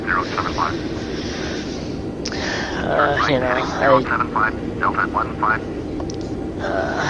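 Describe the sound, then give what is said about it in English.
A steady aircraft engine drone from a flight simulator video game hums continuously beneath a person talking throughout. “the Flight Sim. That plane sounds cool.”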